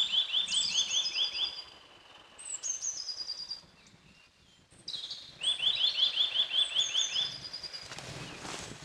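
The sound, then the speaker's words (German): A bird calls with an alarm-like sound: rapid repeated series of high, sharply slurred notes, with a few higher chirps. The notes come in two main bursts separated by a quieter stretch. “Der Vogel, der hat wahrscheinlich auch zu lange neben einer Alarmanlage gewohnt.”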